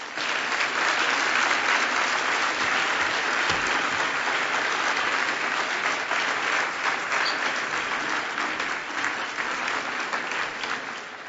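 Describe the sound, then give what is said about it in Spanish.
Sustained audience applause after a speaker's talk at a 2015 conference: a dense, even wash of many hands clapping that holds at a steady loudness for the whole clip, with no voices. “Da un poquito más de aplauso para Salvador”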